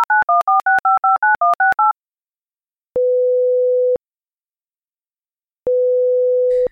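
A telephone call being placed: a quick run of short two-tone dialing beeps, then two long, steady, mid-pitched ringing tones separated by silence.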